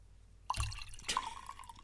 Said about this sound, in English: That's the sound of my wine glass filling up.